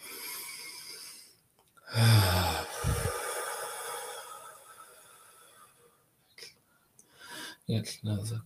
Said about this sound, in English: And everyone just take a nice deep, big deep breath.